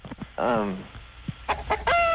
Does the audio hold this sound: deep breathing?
no